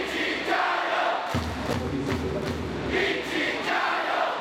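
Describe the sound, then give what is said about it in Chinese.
Basketball fans at a Xiang BA game roar, chant and cheer: Changsha supporters rooting for the opposing Zhangjiajie team in a loud, steady crowd din that pulses rhythmically with the chanting. “面对悬殊的比分，长沙队球迷反而给张家界队喊起了加油。”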